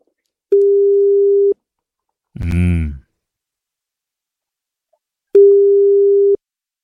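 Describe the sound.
Telephone call tones while dialing: two long, steady, mid-pitched beeps of about a second each, with a brief voice heard between them.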